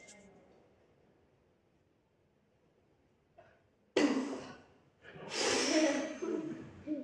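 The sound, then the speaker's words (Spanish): A sudden, forceful gasp of air rushes in as a hand is pulled away from a covered mouth during a fast-breathing exercise. Near-quiet and a faint tap come before it, and a second, longer breathy rush follows. “Intento coger aire, pero estoy tapando la boca con la mano. Y luego quito la mano. Y el aire entra súper rápido”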